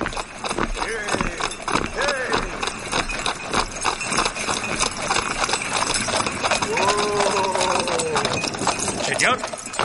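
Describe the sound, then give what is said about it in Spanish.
Clip-clop of four horses drawing a carriage as it arrives at El Escorial, a steady, dense clatter of hooves throughout, with voices at times. “Más tarde, un carruaje tirado por cuatro caballos llega al Escorial”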